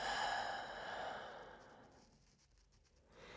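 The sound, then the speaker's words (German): A long breathy exhale released after a deep inhale during a guided belly-breathing exercise. It starts fairly loud, fades gradually to near quiet, and a faint breath returns at the end. “Und beim letzten Mal tief einatmen nochmal. Und loslassen.”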